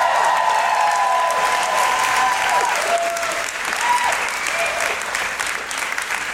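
Audience applause greets a host walking onto a live-show stage: dense, steady clapping holds at an even, loud level for the whole stretch, with a few thin tonal streaks running through it.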